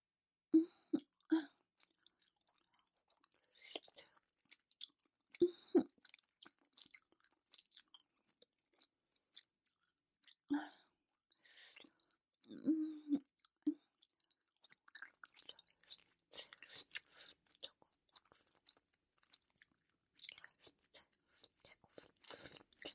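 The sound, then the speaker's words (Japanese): Chewing through a feast: faint, many irregular wet chews and crunchy bites, spaced unevenly and growing busier toward the end, with no speech. “もう私も我慢できませんわ。ごちそうをいただきます。”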